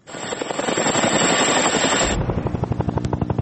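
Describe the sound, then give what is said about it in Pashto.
A NATO helicopter flies over Afghanistan: a loud, rushing roar gives way to fast, steady rotor thumping that keeps a regular chopping rhythm. “لا هم د افغانستان په فضا د ناټو هلیکوپټر ګرځي.”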